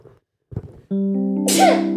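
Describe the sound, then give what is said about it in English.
A single loud human sneeze, with a couple of short breaths, then a drawn-out voiced wind-up that breaks into a harsh, noisy burst. “I have to sneeze.”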